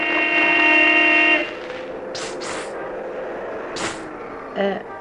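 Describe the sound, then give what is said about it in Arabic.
A car horn gives one long, steady blare lasting about a second and a half, then stops, leaving quieter street noise with a few faint bursts behind it. “حضرتك بتنبهي عليا؟”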